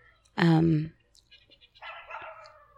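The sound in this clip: A dog gives one loud, sharp bark, followed by a stretch of much quieter, scattered sounds.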